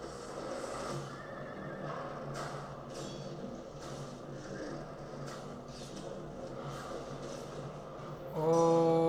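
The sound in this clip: Horse neighing in a samurai video game: whinnying cries over a dense, continuous bed of game sound, with a louder surge right at the end.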